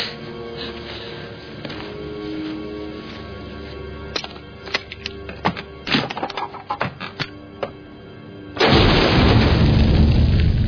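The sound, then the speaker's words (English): A ground-penetrating radar device fires into the ground to image buried bone. A run of sharp clicks and knocks builds up, then a sudden loud blast breaks into a sustained roaring rush that carries on to the end. “Shoot the radar into the ground, and the bone bounces the image back.”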